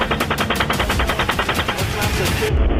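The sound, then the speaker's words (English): Automatic gunfire in leaked military video footage: a sustained, rapid burst of many evenly spaced shots, loud and continuous, ending abruptly. “Come on, fire. Hey, Roger. Keep shooting.”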